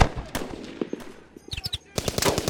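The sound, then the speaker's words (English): Heavy gunfire in unending rounds, with many sharp, loud shots in irregular clusters and quick rapid-fire bursts crowding together without a break. “We made it halfway back through camp as the Bloodbacks hammered us with unending rounds of fire.”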